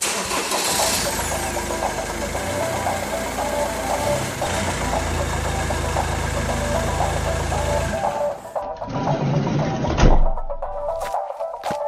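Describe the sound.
A big red van's engine starts up and settles into a steady mid-pitched rumbling idle that runs for several seconds, then shifts briefly near the end.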